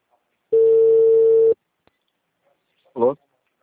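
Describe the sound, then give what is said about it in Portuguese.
One long, steady ringback tone on an outgoing telephone call, holding one pitch, then silence until a brief voice answers. “Tá chamando.”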